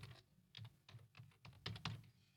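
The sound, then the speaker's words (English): Fingers type on a computer keyboard, entering a search on a website: quick, irregular clicks and taps, fairly faint, with a brief cluster of sharper keystrokes near the end and no voices. “I'll let you know here real quick. I'll type in Amorphous on the website.”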